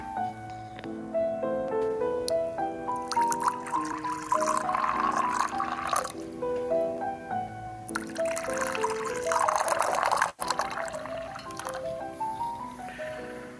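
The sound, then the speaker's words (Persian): Tea poured by a middle-aged doctor into cups for himself and a patient in a consultation room. Two liquid pours rise in pitch as the cups fill, separated by quieter trickles and drips. “مرد روی یکی از تخت‌های مخصوص مشاوره نشسته و دکتر که مردی میان سال است در حال ریختن چای برای هر دویشان می باشد.”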